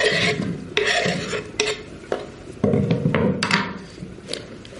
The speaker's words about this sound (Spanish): la hermana Sofía corta unas patatas en la cocina en compañía de otra monja